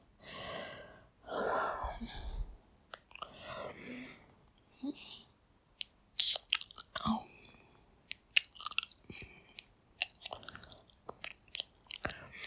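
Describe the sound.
Kissing: soft wet lip smacks and mouth sounds with breathy gasps, a few longer breaths early on, then many quick, irregular smacks, fairly quiet and close.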